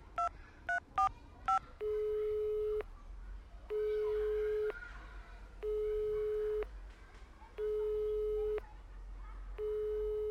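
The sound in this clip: Four quick, bright keypad dialing tones are followed by the ringing tone of a phone call that goes unanswered. The ringing is a run of evenly spaced, steady beeps about a second long, over a low background hum.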